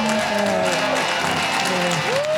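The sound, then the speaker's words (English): Audience clapping at a musicians' gathering, a steady dense patter that runs the whole time, with faint tonal sounds mixed in above it. “Get a little clapping going, get a little energy.”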